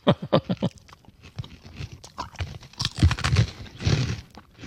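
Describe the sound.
Someone chews a crunchy, hard, deep-fried snack much like churro dough, giving a quick series of sharp, dry crunches followed by softer, irregular chewing and mouth noises.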